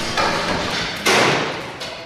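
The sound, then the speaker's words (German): Hammering rings out in a large workshop hall at a social enterprise where electronics are recycled, with a few heavy knocks over a dense, continuous wash of clatter and work noise. “Es ist laut in dieser riesigen Halle. Es wird gewerkt, gekämmert und geschraubt.”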